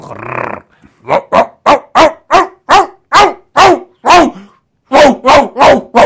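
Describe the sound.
A person imitates a dog barking and growling at a cat, voicing many loud, rapid barks in quick bursts with a brief pause partway through.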